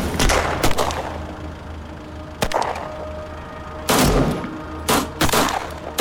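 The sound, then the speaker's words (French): Gunfire from 9 mm pistols during a shootout between gangsters and two gendarmes at a red light: a series of sharp, loud blasts, some bunched in quick clusters and others spaced apart, each leaving a brief ringing tail. “Des coups de feu retentissent de tous les côtés.”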